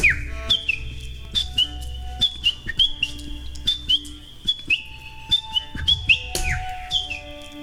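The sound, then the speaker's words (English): Birds chirping: many short, bright, high chirps repeat in a quick, fairly regular pattern over a low, steady background hum. “How do the birds sound there? Yeah, the birds”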